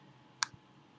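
A single sharp mouse click on an insert-into-post button, a brief bright tick standing alone against quiet background hiss, followed by a faint soft thump.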